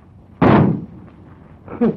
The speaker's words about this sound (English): That shot got him.